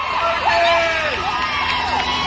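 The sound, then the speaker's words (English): A crowd yells and whoops at a midnight gathering around a casket, with several voices rising and falling in overlapping loud shouts over steady babble. “people are there at midnight, and they're yelling this.”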